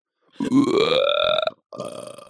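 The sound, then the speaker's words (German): A loud, drawn-out human burp whose pitch rises as it goes, followed after a brief gap by a shorter second belch. “Oh, da ist ein Rülpser, richtiger.”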